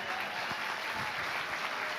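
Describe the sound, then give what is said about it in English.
Steady applause from a church audience welcoming a speaker, dense and even clapping holding at a moderate level for the full two seconds with no voices standing out. “Let's give a round of applause.”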